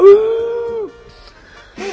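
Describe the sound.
A human voice imitates a wolf howl with one sustained, mid-pitched tone that falls away at its end. Quieter sounds follow, then a short vocal burst.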